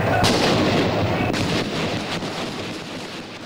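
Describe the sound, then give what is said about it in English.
Gunshots ring out at the cathedral steps massacre in San Salvador, 1979, where police fired on demonstrators: a few sharp, cracking shots over a loud, rumbling, wind-buffeted background roar. “Han sonado unos disparos. Aquí estamos, frente a la catedral.”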